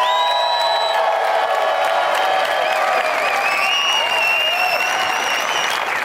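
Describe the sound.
A live audience bursts into dense, continuous applause and cheering, with whoops and shouts rising above the steady clapping for the whole stretch.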